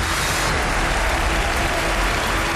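Audience applause on a family competition show as winning families from several teams are congratulated: thick, steady clapping that stays loud and unbroken throughout.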